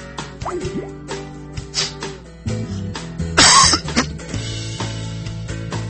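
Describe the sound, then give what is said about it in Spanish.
A single sharp, loud cough bursts out midway over soft background music, then the music carries on alone. “perdón, uno no debe toser en el aire.”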